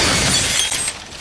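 Glass shattering as a stylish glass coffee table is hurled off a building, a loud sustained burst of breaking glass and tinkling shards that drops away near the end.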